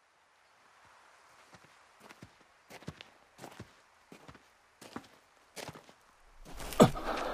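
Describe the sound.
Running footsteps of a person carrying someone else, many faint, evenly spaced footfalls in a steady rhythm, then a louder rush of noise at the end.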